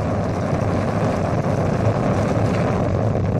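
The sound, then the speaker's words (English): A roller coaster drop on the Fujiyama coaster at an amusement park in Japan: a loud, steady, rushing roar and rumble that runs unbroken throughout, with no voices or screams. “It shows two executives riding the Fujiyama roller coaster. It's the park's number one draw, and here comes the drop.”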